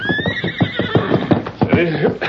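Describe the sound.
Silver, the Lone Ranger's horse, lets out a loud, shrill whinny over the clatter of hooves, and a brief voice comes in near the end.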